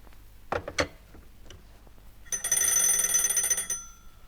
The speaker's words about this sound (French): on me sonne et je ne peux pas parler